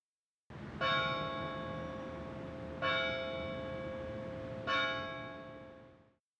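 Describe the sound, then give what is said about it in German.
Church bells ring in three slow, evenly spaced strokes. Each is a resonant metallic toll that sustains and overlaps the next before fading out at the end, fairly faint and without voices. “Kirchenglocken.”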